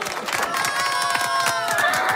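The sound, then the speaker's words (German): Guests applauding and cheering at a summer challenge event in Tyrol with knights and a horse, a steady mass of clapping with sustained tones running through it. “einen Applaus von den Gästen”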